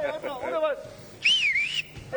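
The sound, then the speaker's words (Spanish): Someone whistling on request among Paraguayan fans out on the street: two whistle bursts, the first short and warbling, the second a high, wavering, forced-sounding tone, with pauses between them. “Ese último ya le forzó un poco el silbido.”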